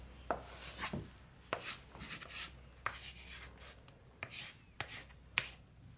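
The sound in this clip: Chalk writes on a blackboard in faint, irregularly spaced taps and short scratchy strokes.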